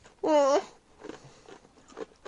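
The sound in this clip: Person chewing a large mouthful of food: a short voiced groan, then a few faint, soft, wet chewing sounds spaced irregularly.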